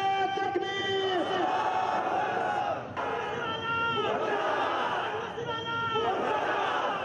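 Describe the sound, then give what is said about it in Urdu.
A rally crowd in Quetta chants slogans at a street sit-in against the sealing of religious schools. Many voices shout in loud, rising call-and-response bursts, with chatter between the chants. “Rally کے شرکا مختلف شاہراہوں سے ہوتے ہوئے منان چوک پہنچے اور وہاں پر دھرنا دیا۔ اس موقع پر وہ نعرے بازی کرتے رہے۔”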